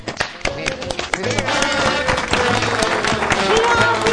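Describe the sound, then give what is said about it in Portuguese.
Audience applause at a tribute: many sharp, rapid hand claps run throughout with little change in loudness, mixed with voices and some shouting. “Palmas, não gritos.”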